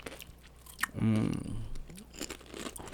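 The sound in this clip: A sharp crunching bite into stale Flamin' Hot Nacho tortilla chips, followed by quieter chewing and soft mouth crunches, up close and fairly faint overall.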